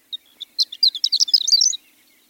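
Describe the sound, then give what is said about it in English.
A male horned lark sings while hovering and circling high in the air. A few thin, high isolated notes build into a rapid tinkling, jumbled run of chirps that stops abruptly. “Our bird, a male-horned lark, is 100 feet in the air, hovering, wings fluttering, circling against the blue sky.”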